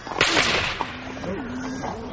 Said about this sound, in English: You be ready to shoot up into the air directly I give the word. Yes, sir. All ready, your worship. Then. One, two, three, and shoot!